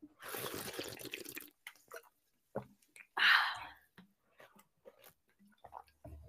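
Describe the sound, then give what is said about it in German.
A person takes a quick drink of a beverage: soft mouth and liquid sounds, faint clicks, and one louder gulping swallow near the middle, with quiet breathy noise at the start. “Ich trinke kurz was, einen Moment.”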